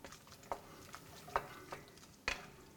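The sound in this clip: A spoon stirs shrimp corn chowder in a pot, making a few short, faint clinks and scrapes spaced apart over a soft background hiss.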